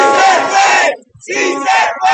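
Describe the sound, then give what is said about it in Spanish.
A large crowd of supporters outside a polling station chants loudly in unison, with applause mixed in. Two bursts of massed voices are split by a brief lull. “Aquí fue recibido por un grupo numeroso de simpatizantes que lo recibieron en medio de arengas y aplausos.”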